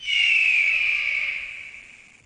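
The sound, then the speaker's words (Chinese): A person imitates an eagle's call during a guessing game, giving one long, high, whistle-like screech. It holds loud for a moment, then sinks slightly in pitch and fades away. “鹰， 系咪鹰啊？ 全中”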